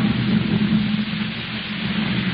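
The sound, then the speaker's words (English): Heavy rain falling at night outside a carnival tent: a steady, dense hiss with a low rumble beneath, unbroken and even from start to end, with no voices. “Raining cats and dogs.”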